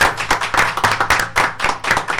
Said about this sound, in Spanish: Así que un aplauso para Diego, de verdad.